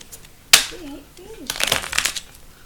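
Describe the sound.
Tarot cards being shuffled without a bridge: a sharp snap opens a quick run of dense, papery riffling bursts, with a faint voice murmuring briefly in between.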